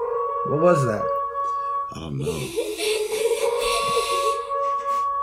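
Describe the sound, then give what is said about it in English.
A Halloween sound effect played from a sound pad gives an eerie, wavering howl with sustained tones. It starts alone, then voices talk over and around it. “Oh, wait, I know what that sound was. It's our sound effects pad that we have for Halloween.”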